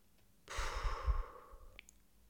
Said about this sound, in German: Und noch ein letztes Mal. Einatmen und ausatmen. So ist die Bauchatmung.